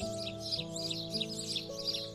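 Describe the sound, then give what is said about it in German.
Sparrow chicks twitter in several quick, high chirping bursts with a light, giggle-like rhythm over a soft sustained tone. “Ein paar Spatzenkinder können sich ein kurzes Kichern nicht verkneifen.”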